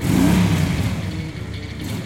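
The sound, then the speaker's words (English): Motorcycle engines rev in the distance, a low rumbling drone with a brief rising rev at the start that then settles into a steady, fluctuating hum. “motorcycle engines revving in the distance”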